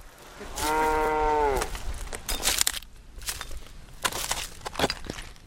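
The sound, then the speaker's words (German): A stray, emaciated calf bleats among the ruins of an abandoned village: one drawn-out, steady call lasting about a second, followed by scattered crunching and rustling noises. “Zwischen den Ruinen von Navarvita trottet ein herrenloses, abgemagertes Kalb umher.”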